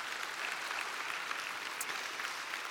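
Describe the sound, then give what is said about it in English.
A church audience applauding during a morning service, an even, continuous wash of clapping from many hands that stays level from start to finish with no voices above it. “And let's put our hands together and just welcome each other to church this morning.”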